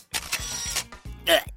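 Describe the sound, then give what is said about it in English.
Camera shutter sounds as a selfie is snapped with the flash on: a few sharp mechanical clicks and short whirring bursts in quick succession, fairly loud, with no voices. “You had the flash on, Kapow. Why did you just take a selfie with me?”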